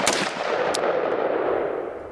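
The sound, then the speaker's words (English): An AR-15 rifle fires a couple of rounds at regular speed, sharp loud cracks followed by a long rolling reverberation that fades out over about two seconds. “This is that gun firing just a couple of rounds just on regular speed.”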